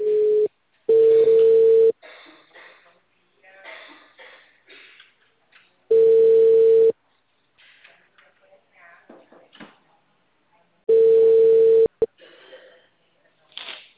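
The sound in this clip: A telephone line tone after a dropped call sounds as four loud, steady mid-pitched beeps. The first two come close together and the last two are spaced several seconds apart, with faint murmuring voices in the gaps.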